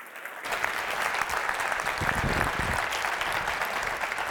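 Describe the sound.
An audience at Grace Fellowship Church applauds to welcome a guest speaker. Dense, steady clapping rises quickly and holds at a full level for a few seconds.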